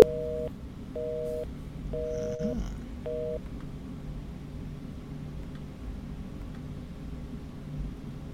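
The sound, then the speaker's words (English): A telephone busy signal sounds as four evenly spaced, steady tone bursts over a low hum of line noise, then stops, leaving only the faint hiss. “It's ringing and it's busy.”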